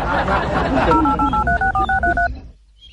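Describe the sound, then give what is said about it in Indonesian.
Touch-tone beeps as a number is dialed on a mobile phone: a quick run of short, evenly spaced keypad tones at shifting pitches, preceded by a brief stretch of rustling noise. “Nih, telepon nih pakai HP-ku. Sini.”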